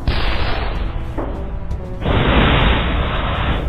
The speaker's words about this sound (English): It's launching explosive grenades at us.